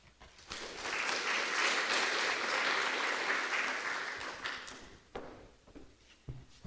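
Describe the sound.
Audience applause welcoming a speaker at a law school event: a full burst of clapping that swells quickly, holds for several seconds, then dies away into a few scattered light taps.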